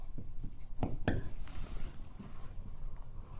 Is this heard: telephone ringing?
no